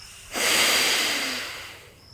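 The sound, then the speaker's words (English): One forceful exhale through the right nostril during a yoga breathing exercise: a sudden, loud rush of air that peaks early, then thins and fades over about a second and a half. “Exhale through the right nostril.”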